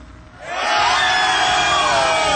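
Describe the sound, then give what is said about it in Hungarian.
A crowd cheers wildly at a gathering in Baja, a mass of shouts and whoops that surges up within half a second and holds loud and dense to the end. “Baján, és ott nem tudunk mit csinálni, a tömeg őrjön.”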